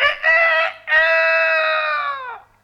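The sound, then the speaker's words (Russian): A rooster crows from its hiding place under a window, a loud, harmonic call in two parts: a short opening burst, then a long, sustained crow that holds steady before trailing off, with no voices over it. “Вы, конечно, понимаете, что осел только открывал рот, а кричал спрятавшийся под окном петух.”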